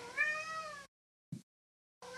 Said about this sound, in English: let me let the cat out